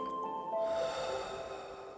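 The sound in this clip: A slow, soft in-breath, drawn audibly through the nose, is part of a guided relaxation exercise. It swells gently and then eases over faint sustained tones, and no one speaks.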